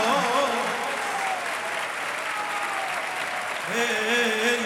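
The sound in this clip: An audience claps in strong, steady applause that continues throughout. A voice is heard over it at the start and again near the end.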